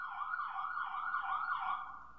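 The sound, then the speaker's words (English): An ambulance siren wails on a New York street, a loud, steady electronic tone rising and falling in quick regular sweeps throughout, with no voices over it. “Ambulance is totally laying on that siren.”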